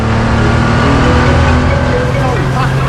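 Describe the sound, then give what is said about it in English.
Porsche and SUV engines roar through a car chase with drifting and swerving, a loud, continuous growl that shifts in pitch, with a voice talking over it. “the SUV drifts behind them. The Porsche drifts around a corner. The SUV swerves around another car.”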